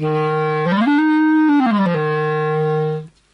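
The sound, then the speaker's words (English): A wooden B-flat clarinet about a metre long plays alone: a low, clear, reedy sustained note steps up to a higher one, then drops back to the first before stopping. “So what I have here is I have a normal B-flat clarinet. It's about a metre long, made of wood, and it sounds like this when you play it.”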